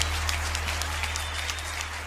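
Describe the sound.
Applause: dense, even clapping holds at a steady level throughout, over a constant low hum.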